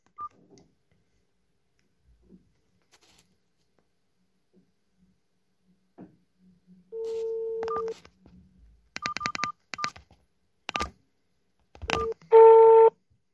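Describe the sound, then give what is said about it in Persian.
Touch-tone dialing to place a phone call begins after a near-silent stretch with a brief steady tone. A series of short keypad beeps follows at uneven intervals, ending in a louder sustained tone. “بدون معطلی بریم و با ایشون تماس بگیریم.”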